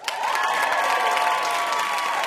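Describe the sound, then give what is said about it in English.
A studio audience on a trivia game show applauds and cheers a celebrity guest. Steady, dense clapping is joined by a sustained whoop from the crowd. “All right, big hand for our wonderful VIP, W. Kamau Bell.”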